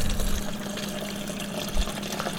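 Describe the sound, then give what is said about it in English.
Water running from a refrigerator dispenser: a steady, hissing pour throughout the short clip, with a brief louder splash near the end. “I'm in the refrigerator trying to get water.”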